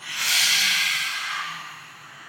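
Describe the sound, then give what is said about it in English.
A deep breath drawn in and let out, a soft airy rush that swells early and then slowly tapers away, with no talk. “Deep breath in, out.”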